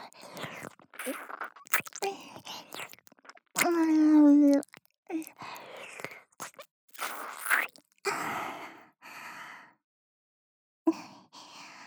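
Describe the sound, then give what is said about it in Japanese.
Wet licking and eating mouth sounds in a close roleplay, with short smacking and slurping bursts separated by brief pauses and a soft voiced murmur in between. “ペロペロして食べてあげますね。”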